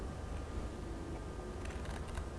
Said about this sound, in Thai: หญิงจะตัดที่มุมด้านบนของจานกระดาษนะคะ